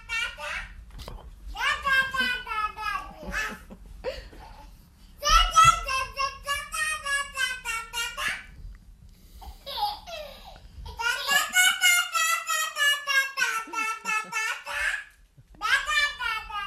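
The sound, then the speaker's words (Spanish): Two babies babble back and forth in bright, high-pitched bursts of baby talk, one voice sounding questioning and the other answering, with giggles and laughter mixed in. “Pues le está hablando, es un bebé que habla con otro. Yo creo que está interrogando. Además. Sí, va para arriba, ¿no? Y el otro le contesta o se ríen. Son bebés que están aprendiendo a comunicarse,”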